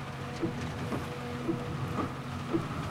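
Heavy rain falling, a faint, continuous hiss of dense drops that stays even throughout, with no talk over it.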